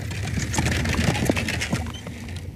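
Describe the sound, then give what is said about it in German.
Clip-clop of horse hooves and rattling of a horse-drawn carriage on a road, a dense run of quick knocks at steady loudness throughout, with no voices. “Mit einem Ruck kommt die Kutsche zum Stehen.”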